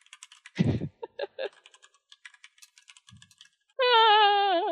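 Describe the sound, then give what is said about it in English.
Typing on a computer keyboard: many quick, light key clicks in an uneven patter, with a louder, deeper burst near the start. A loud, steady, wavering electronic tone enters near the end and runs to the close. “The poison promise is being typed.”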